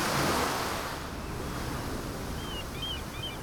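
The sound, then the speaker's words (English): Ocean waves washing onto the shore make a steady, broad rushing roar that stays fairly even throughout, with no voices. “You stand right at the ocean, and it's beautiful because it's in big natural stereo. There are things happening on both sides of you as well as happening directly in front of you.”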